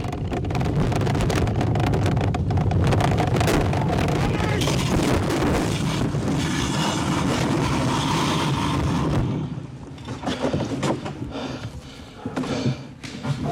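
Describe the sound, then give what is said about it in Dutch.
A bobsleigh roars through the end of a run on an onboard microphone as it overshoots onto the run-out, its braking hampered by a leg lying on the brake. A loud, continuous rumble gives way to quieter, rougher bursts. “Aan het einde van de eerste afdaling, de bob schiet door op de uitloop van de baan.”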